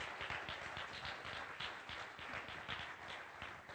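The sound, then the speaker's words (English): Applause from a church audience welcoming a speaker during a morning service: dense, even clapping that stays fairly faint and steady for the whole stretch. “Would you put your hands together and welcome Brittany Perry this morning?”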